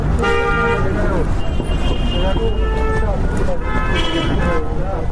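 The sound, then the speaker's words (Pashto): Busy street traffic of cars and rickshaws rumbles steadily and loudly, with repeated short horn toots cutting through, while a voice talks over the scene. “پر سړک تیرېدونکو موټرو، رکشو او خلکو ته ګوري.”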